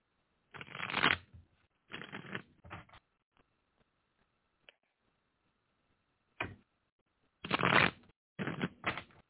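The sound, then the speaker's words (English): Tarot cards are shuffled for a reading. Several short, crisp riffling bursts are separated by quiet pauses, with faint isolated ticks between them and a cluster of bursts at the end. “I want to pull some cards for you. I don't always do the cards, but I want to do the cards today.”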